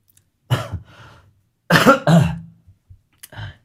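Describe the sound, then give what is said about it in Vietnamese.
A few harsh coughs and throat clearings come in short, loud bursts separated by brief silences, with no talk. “Đang ho mà.”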